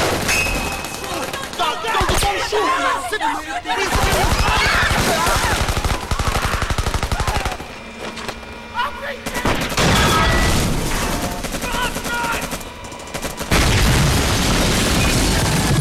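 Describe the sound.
Heavy gunfire rings out in a street battle outside a block of flats, with dense rapid machine-gun bursts and booming shots. The firing stays loud and almost continuous throughout, and a voice is heard at times beneath it.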